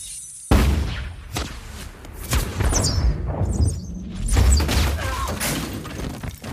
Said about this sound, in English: Rifle rounds slam into trays of Valkyr, causing explosions of glass and blue liquid.